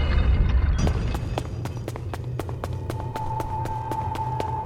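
Footsteps of someone walking tap out in a quick, regular rhythm of many sharp, light steps, with a steady faint tone joining in the background partway through.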